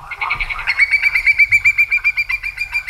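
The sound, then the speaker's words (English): A whimbrel, a migratory sandpiper shorebird, gives a rapid run of many clear whistled notes in an even, pulsing rhythm. The notes are loud and high, with no other sounds. “That is the call of a whimbrel, and if it sounds familiar, don't be surprised if you see shorebird scientists mulling around your backyard.”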